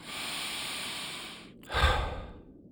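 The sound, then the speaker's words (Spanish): Long, steady breath drawn in through the nose, then a louder, sigh-like exhale through the mouth during a calming breathing exercise. Soft and unhurried, with no talking. “inhala por la nariz y enseguida suelta por la boca.”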